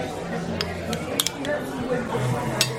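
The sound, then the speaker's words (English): Cutlery and a plate clink as a fried egg is placed on top of a steak, with a few sharp, bright taps scattered across a low murmur of voices. “for the benefit of listeners, he's putting the fried egg on top of his steak.”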